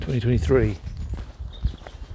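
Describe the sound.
Footsteps of someone walking the dogs through wet woods after overnight rain: soft, irregular steps that follow a brief burst of a person's voice at the start.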